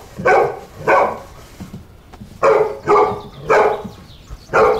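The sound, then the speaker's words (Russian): A tied-up dog barks in a series of sharp, rough barks with short uneven gaps between them, fairly loud and with no people talking. “подходит к привязанной собаке. Ну что ты гав, гав, гав, что ты гав?”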